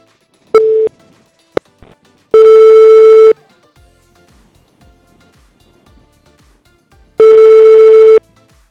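Ringing on an outgoing telephone call: a short tone and a few clicks come first, then two steady, loud ringback tones of about one second each, spaced roughly four seconds apart, with near silence between them and no voices.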